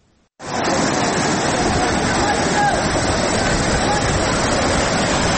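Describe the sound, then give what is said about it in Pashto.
Flood water rushing through a stream that has washed out a road, cutting it about a metre and a half deep. It is a loud, steady roar that starts abruptly after a brief quiet moment and holds constant throughout. “د نړۍ ولسوالۍ او اسدآباد ترمنځ د سونک خوړ دی چې په کې تیر شوی سړک اوبو وړی دی.”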